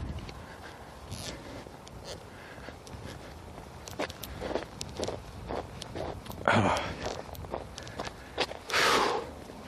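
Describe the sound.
Footsteps of someone walking outdoors along a park in winter, on damp tarmac with signs of melting, giving a steady run of soft, scuffing steps at a quiet level.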